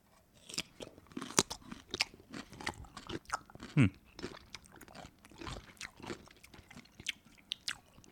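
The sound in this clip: Biting and chewing a crunchy dill pickle flavoured snack: many sharp, brittle crunches in an irregular rhythm, fairly soft and close, with no talk over them.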